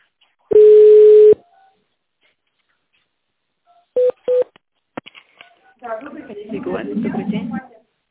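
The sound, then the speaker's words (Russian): Telephone keypad tones dial an extension on a company phone line. One long steady tone sounds, and after a pause come two short, evenly spaced beeps. A voice then begins speaking. “Наберите внутренний номер или оставайтесь на линии.”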